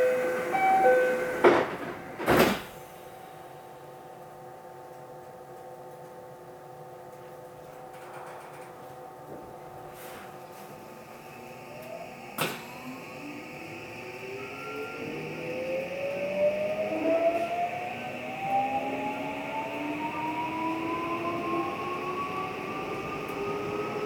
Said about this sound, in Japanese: ユニバーサルシティ方面桜島行きが発車します。 ドアが閉まります。